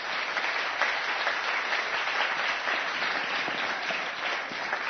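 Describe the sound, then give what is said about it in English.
An audience at a union gathering applauds to welcome a speaker, with dense, even clapping that stays at a steady level throughout. “So I wish you would give a warm welcoming to Clarence Thomas.”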